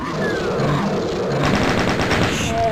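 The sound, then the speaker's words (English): Rapid gunfire in a video game: many shots crowd together in a dense, loud, steady rattle that holds through the whole stretch without a pause. “Here's some firing to our right.”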